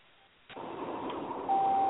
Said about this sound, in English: You hear this beeping. That beep, I apologize. I'm on the side road listening to you guys.